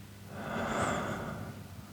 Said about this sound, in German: tief einatmen und langsam wieder ausatmen. Na, ich mache das jetzt einfach mal, kannst du auch gerne mitmachen. Einatmen und wieder ausatmen.